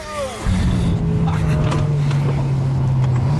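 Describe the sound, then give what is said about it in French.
A car engine drones as the car travels at 170–180 km/h during an emergency swerve-avoidance exercise. A loud, steady engine hum starts abruptly after half a second and holds, its pitch sinking slightly toward the end. “Voilà, exercice typique, la voiture file, 170, 180 km/h et au dernier moment,”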